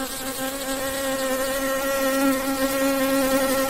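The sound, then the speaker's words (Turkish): A wasp's wings buzz in a steady, continuous drone with a low hum and a slight wavering in pitch. The buzz holds at an even, fairly loud level throughout. “Evet, bu da ses yapıyor. Ama bu yaban arısı, eşek arısı, sarı arı.”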